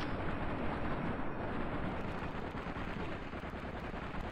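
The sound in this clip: Video-game gunfire from a weapon that burns through ammunition fast: a dense, loud, roaring barrage with no clear gaps between shots, steady throughout.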